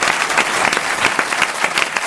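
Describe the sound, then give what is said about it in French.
An audience applauds a guest with dense, steady clapping that holds at an even, fairly loud level for the whole short stretch. “On peut applaudir Pierre Bénichou.”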